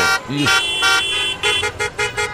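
A car horn honks repeatedly while it is being adjusted on a car: a few longer blaring blasts, then a rapid series of short toots, all loud and evenly pitched.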